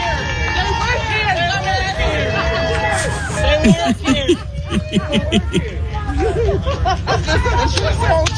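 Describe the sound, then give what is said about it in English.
Counter-protesters jeer and mock at a protest, many voices shouting and laughing over one another, with snickers and chuckles breaking through a continuous crowd babble. “These are the counter protesters mocking them over there.”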